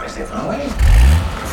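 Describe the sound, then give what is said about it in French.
A London black cab taxi engine gives a brief, deep rumble that swells and fades under a talking voice. “Voilà, on vient d'entrer dans le taxi de Mohamed Mohamed. On est confortablement installé à l'intérieur de son véhicule spacieux, typique de la capitale britannique, ces fameux black cabs très larges, très hauts sur roues, aux formes rondes et rétro,”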